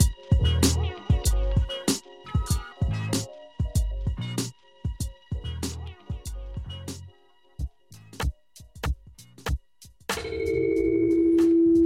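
A telephone rings for an incoming call, a steady buzzing tone that sets in near the end after a stretch of rhythmic, beat-driven music.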